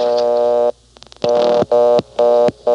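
On a coin telephone, a loud buzzy line tone follows dialing 1. The steady tone cuts off, a few soft clicks sound in the gap, then the tone returns in several short interrupted bursts.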